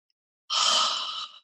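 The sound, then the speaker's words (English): One quick inhale taken during a breathing exercise: a single airy breath drawn in sharply, lasting about a second and fading at the end, alone after a stretch of silence. “Inhale quickly, exhale slowly. One more, inhale,”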